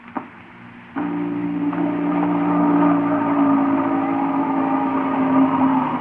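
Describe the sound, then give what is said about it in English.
Motors warming up as a machine is switched on: a steady, droning mechanical hum of layered tones starts abruptly after about a second of quieter noise and one brief click, then holds at an even loudness. “Sounds like motors warming up. Hey, that sounds like a short circuit somewhere.”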